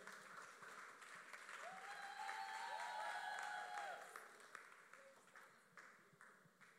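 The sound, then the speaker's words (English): Standing ovation applause from an audience welcoming guests, steady massed clapping that builds through the middle and then tapers off, with faint tonal pings above it. “With a standing ovation, we are going to welcome Uncle Allison and Auntie Choco.”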